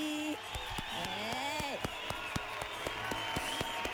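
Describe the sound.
Light clapping welcomes a new director on a Japanese radio show. Scattered, crisp claps are spread over a few seconds beneath a speaking voice.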